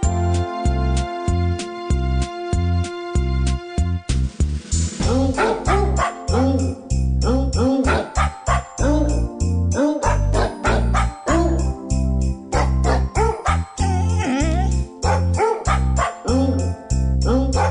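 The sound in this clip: Dog barks pitched and sequenced into a novelty song: a bright, jingly tonal intro gives way to rhythmic, loud barking that carries the melody over a chiming backing, with many barks repeating in a bouncy pattern.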